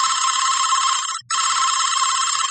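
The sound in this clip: A telephone rings unanswered, a loud, bright, buzzing electronic trill in two long bursts split by a short break, with nothing else audible.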